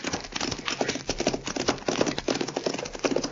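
A horse's hooves clip-clop along a trail in a steady, brisk rhythm of many loud hoofbeats.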